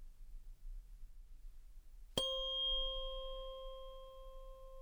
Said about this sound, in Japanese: 音叉の音が右へ左へ振り子のように揺れています。